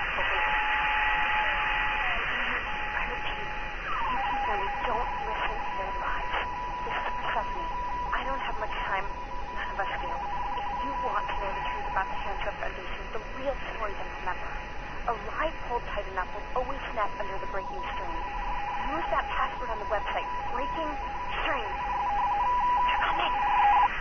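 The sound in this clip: Telephone keypad tones sound in an interactive voicemail system. A series of short pitched beeps runs over a steady background hiss.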